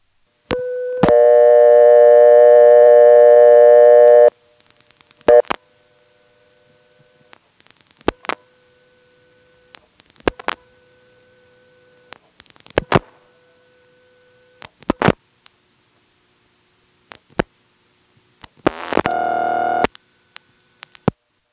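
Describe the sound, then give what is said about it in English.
A step-by-step telephone exchange answers an intra-office call to a business hunt group. A steady tone is followed by clicks and a brief whirring as the hunting selector searches for a line. Spaced ringing tones then repeat at regular intervals, separated by sharp clicks. “Here's another intra-office call, which appears to be in a hunt group. I don't know how many lines this business has, but right after I dial the last digit, there's a subtle hunting noise before it rings.”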